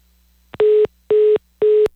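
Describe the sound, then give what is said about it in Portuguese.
A telephone busy tone after a dropped call, three identical steady beeps at the same pitch, evenly spaced with short silent gaps between them. “Bom, nós tivemos aí um problema na linha da doutora Aline Arquette. Vamos tentar de novo o contato? Caiu a ligação aí”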